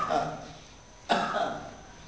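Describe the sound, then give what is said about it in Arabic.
A single sharp cough breaks in during a surgery lecture on abdominal wall anatomy: a sudden, fairly loud burst that fades over about a second, with softer, murmuring sound before it. “كحه”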